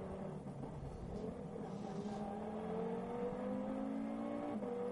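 Racing prototype car engine droning steadily and fairly faint, its harmonic tone climbing gradually in pitch through the second half as the car gains speed.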